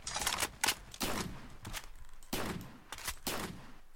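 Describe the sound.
Pump-action shotgun blasts in a video game, several loud, sharp bursts in quick succession with brief gaps between them, set against steady background game noise.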